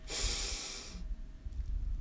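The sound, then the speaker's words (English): A deep breath drawn in from the bottom of the belly during a meditation practice: one long, airy inhale lasting about a second, soft overall, then falling away to faint low rumbling. “We begin by taking three very deep breaths from the bottom of our belly. We'll breathe in”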